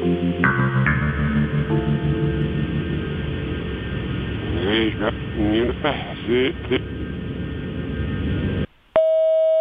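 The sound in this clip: Telephone line tones sound after a number is dialed, steady and band-limited, with a voice-like stretch over the line midway. A brief drop to silence is followed by a single clear, sustained beep at the end.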